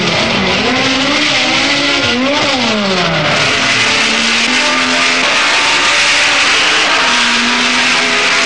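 Racing cars roar away at the start of an 80-lap Grand Prix at Brands Hatch. Loud engines rev continuously, their pitch climbing and dipping as they accelerate and change gear.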